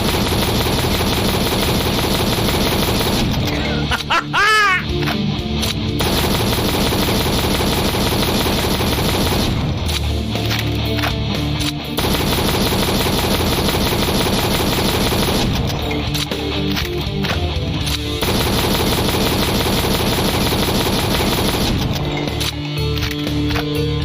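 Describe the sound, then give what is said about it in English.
Loud, rapid bursts of automatic shotgun fire in a video game, coming in several long volleys separated by brief gaps, with short electronic game sounds mixed between them. “I finally got it! The auto shotgun. Check this shit out.”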